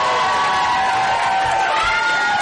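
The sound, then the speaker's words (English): An audience at a stand-up comedy show cheers and whoops for a first-time comedian, a loud continuous roar of voices with high shouts over the top. “Make some motherfucking noise for Jazz, ladies and gentlemen!”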